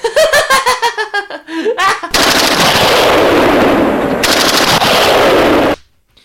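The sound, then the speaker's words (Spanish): Rapid machine-gun fire rattles in quick bursts, then gives way to a loud, sustained roaring rumble of bombing that holds for several seconds before cutting off. “¡Bombardeo!”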